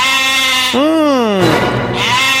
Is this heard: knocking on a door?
no